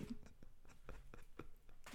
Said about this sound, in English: He's writing it down. But peek behind the curtain again. Oh, it's all pen and paper really here.